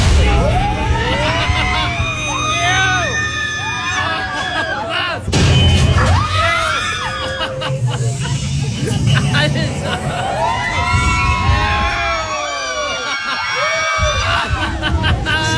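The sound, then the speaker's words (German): Riders scream and shriek with laughter on the Tower of Terror free-fall ride: many loud, overlapping high-pitched voices wail and rise in a dense, continuous crowd of cries throughout. “Und das geht noch ungefähr 2 Minuten so weiter. Also die Schreie, das bin nicht ich, sondern dieses Lachen im Hintergrund.”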